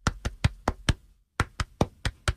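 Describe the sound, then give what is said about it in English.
Body percussion made by hitting the stomach like a drum: ten dull, evenly spaced thumps in two groups of five, separated by a short pause. “Did you know that your body could be a drum? You can hit on your stomach,”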